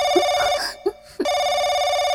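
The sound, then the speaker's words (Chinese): A telephone rings repeatedly, a loud, steady electronic bell tone that breaks off briefly between rings before starting again. “眼见铃声响了一遍又一遍”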